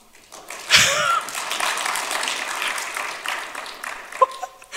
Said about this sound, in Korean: 아 여기는 3부 때는 처음부터 박수가 나오네요.